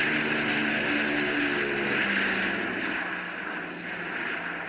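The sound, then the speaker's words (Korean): Distant droning of U.S. Air Force C-54 Skymaster four-engine propeller transports flying in during 1950. The engines make a steady, broad, continuous rumble at moderate level, with no voices. “멀리 공중에서 웅장한 프로펠러 소리가 들리기 시작했습니다”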